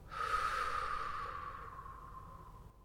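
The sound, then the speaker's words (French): A long, deep breath during a slow breathing exercise: a single continuous airy rush that starts strong and gradually fades over about three seconds, heard alone without talk. “inspire par le nez en gonflant ton ventre. Et expire longuement par la bouche.”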